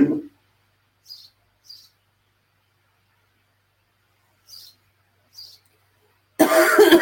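A man coughs and clears his throat: a short rough burst at the start and a louder, harsher burst at the end, with four faint high chirps in the quiet gap between.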